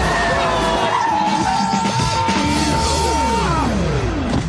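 A taxi's tires skid and squeal during a race for a cash prize: several sharp squeals that slide down in pitch over a loud, steady roar of engine and road noise.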